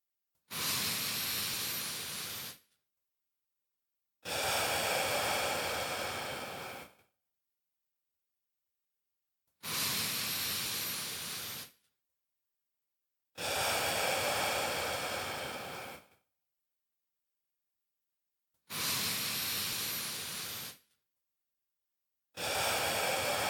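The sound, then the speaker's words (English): Three slow, deep breaths during a guided mindfulness exercise before a meal, each an airy inhale and a longer exhale, heard as six loud hissing swells separated by silent pauses. “Let's take 3 deep breaths and pay attention to this area.”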